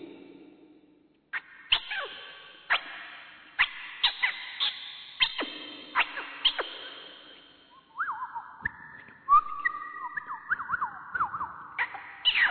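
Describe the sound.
A voice imitates a small bird chirping: many sharp, high whistled chirps swoop downward one after another, followed by a run of quicker, lower warbling trills.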